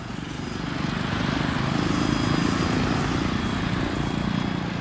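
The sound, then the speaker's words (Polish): A small propeller plane that will tow a glider drones steadily at a small but busy airfield. The engine noise stays loud and even, swelling slightly midway, with no voices. “No ten hałas jest powodowany przez jakiś mały samolocik tutaj, który będzie holował szybowca.”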